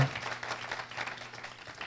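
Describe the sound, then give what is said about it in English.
Audience applause rings out as a dense, steady wash of many hands clapping at moderate loudness, with no talk over it, lasting about two seconds. “Give this guy another big round of applause, because come on, you can do a little better than that. There you go.”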